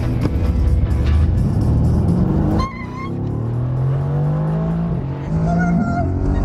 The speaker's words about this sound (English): Today, we'll go more than twice that fast on what's called a hot lap. Let's do a proper burnout.